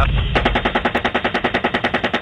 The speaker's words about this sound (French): Depuis l'hélicoptère, les Américains se mettent en tête que ce sont à nouveau des combattants qui viennent récupérer des armes. Ils tirent sur l'ambulance.